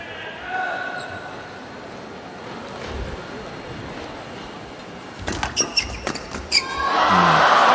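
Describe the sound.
Table tennis serve and return in a professional match: a quick series of sharp ball clicks over a low background murmur, followed by a swell of crowd noise.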